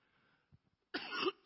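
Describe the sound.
A person coughs and clears their throat of phlegm: a harsh, rough burst after a few faint clicks, then another loud rasp at the end.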